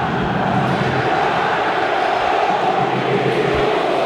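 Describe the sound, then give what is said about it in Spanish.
The Racing Club football crowd in Avellaneda jeers and hurls insults at the final whistle of a 2-0 home defeat to Belgrano, a loud, dense, unbroken roar that holds steady from start to finish. “Insultos a Diego Milito directamente. Directamente contra el presidente. Estalló el público de Racing con el final del partido y con el segundo del Mudo Vázquez.”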